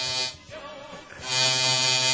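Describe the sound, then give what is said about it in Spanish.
An electric shaver buzzes as someone shaves, a bright, steady electric hum that dips in loudness in the middle, then swells back to full strength and holds. “Ah, la afeitadora. Ahí está, se está afeitando.”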